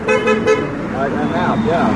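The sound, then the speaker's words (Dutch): A friendly car horn sounds in a few quick, light toots at the start. Steady voices talking follow right after. “That was a good one. A friendly one. A friendly honk.”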